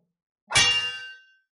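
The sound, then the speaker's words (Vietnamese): A single sharp metallic clang as a black arrow strikes a holy sword. It hits loud and bright, then a ringing tail fades over about a second, with nothing else around it. “Mũi tên màu đen đánh lên thánh kiếm, phát ra tiếng nổ rung trời”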